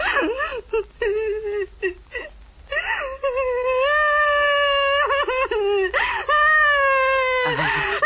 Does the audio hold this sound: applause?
no